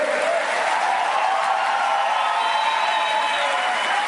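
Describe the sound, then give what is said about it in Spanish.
An audience breaks into strong applause on request, with dense, steady clapping that stays loud and even for the whole stretch, mixed with a low crowd murmur. “denles un aplauso, por favor. ¡Pero fuerte!”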